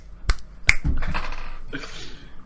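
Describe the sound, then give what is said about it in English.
Crisp finger snaps: a few sharp, loud, very brief cracks in quick succession, followed by rougher, lower sounds. “I'm going to go ahead and do like three snaps.”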